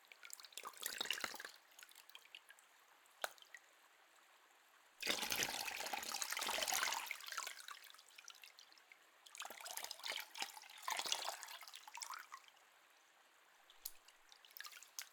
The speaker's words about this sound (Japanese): こうして手でお湯をすくう音も涼を感じますよね。